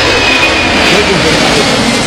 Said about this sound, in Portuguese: Olha o avião aí. Ó. Decolou.